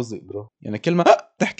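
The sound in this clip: A voice imitates hiccups with a few short, choppy vocal bursts separated by brief pauses.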